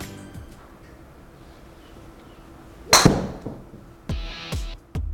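A golf club strikes a ball during swing practice with one sharp, loud crack, followed by a few quieter short knocks.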